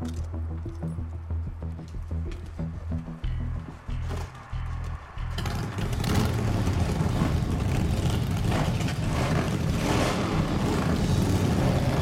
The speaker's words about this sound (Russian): Байкеры уезжают.